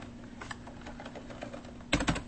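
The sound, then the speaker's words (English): Typing an Apple ID password on a computer keyboard: a run of soft, quiet key clicks, then a louder cluster of a few quick keystrokes near the end. “So I need to type in my password to do that. So I will do that for my Apple ID.”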